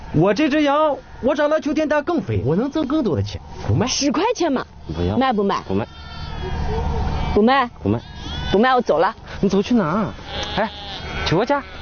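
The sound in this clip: Many loud, quavering bleats from sheep, including a milking ewe, in a herd being taken to summer pasture. The bleats come in quick overlapping runs, rising and falling in pitch throughout.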